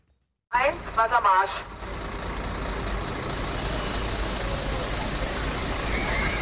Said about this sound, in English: In Berlin, this is the sound of police spraying a water cannon into crowds seeking relief from the sweltering heat.